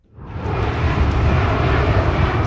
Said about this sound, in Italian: Sopra l'avveniristico SoFi Stadium di Los Angeles è un continuo volare di aerei in fase di atterraggio all'aeroporto della metropoli californiana